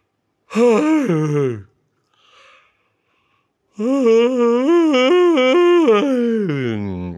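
A long, voiced yawn in two drawn-out parts: a brief first breath, then a longer stretch with wavering, stepping pitch that fades at the end.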